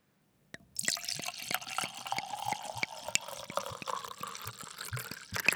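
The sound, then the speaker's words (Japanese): Sake glugging as it is poured from a 4-go bottle: a quick, steady run of many hollow, gurgling pulses. It begins abruptly after a brief silence and continues to the end without voices. “日本酒のトクトクトクという音、なんだか徳を積んでるように聞こえてきませんか？”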